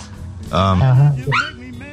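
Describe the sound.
Dog barking in two tonal, whiny bursts, the first longer and the second brief and sharper, fairly loud over a steady low hum.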